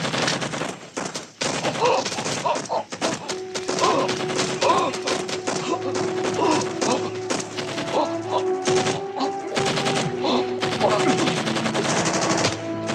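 Machine gun fire in the 1989 war film Casualties of War: dense, sustained bursts of rapid automatic shots, rattling almost without pause and staying loud throughout.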